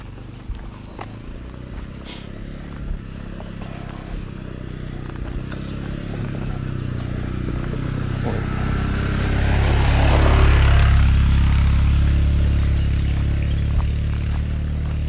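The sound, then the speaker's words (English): A motorbike engine heads up a lane as a low droning rumble that swells to a peak and then eases slightly, over steady outdoor background noise. “Bike going up the lane here.”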